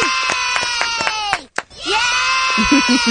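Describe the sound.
A crowd cheering "yay": shrill, high voices shouting in quick repeated bursts, a brief break in the middle, then sustained cheering again.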